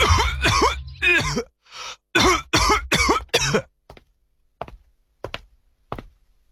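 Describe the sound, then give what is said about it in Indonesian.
A man with a cough that has lasted over three weeks, with fevers at night, coughs in a rapid run of harsh bursts. A few faint taps follow in near silence. “Bapak masih batuk, Pak.”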